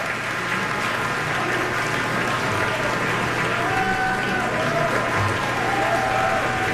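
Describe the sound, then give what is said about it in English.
A concert audience gives a loud standing ovation as the musicians return for a curtain call. The applause is thick and sustained from start to finish and holds at an even level throughout. “standing ovation from the audience after that performance. Everybody on their feet here applauding this beautiful evening of music we've been able to share in tonight.”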